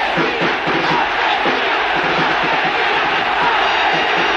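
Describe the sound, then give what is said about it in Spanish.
A stadium crowd at a football match whistles and jeers at the president, a dense, steady roar of many voices that stays loud and even throughout, with no single voice standing out. “El presidente soportó una silbatina bien diferenciada del aplauso deportivo.”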